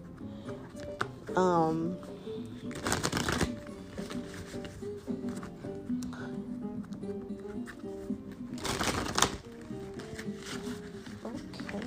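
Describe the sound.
A deck of behavioral cards is shuffled twice, each a short burst of riffling flutter, with a person talking in the gaps between and around the shuffles.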